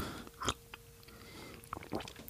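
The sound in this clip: Soft slurping and swallowing as someone sips water: a few brief, quiet mouth sounds with faint background noise between them.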